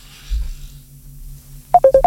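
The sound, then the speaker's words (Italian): Electronic telephone tones from an incoming WhatsApp call: four quick beeps in fast succession near the end, after a low, steady hum. “Io vorrei sapere chi è che chiama sul numero eccolo.”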